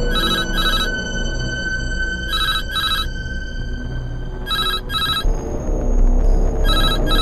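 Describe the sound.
A telephone rings on an emergency call line in a repeating double-burst pattern: four paired rings at an even pace, bright and clear above a low background rumble.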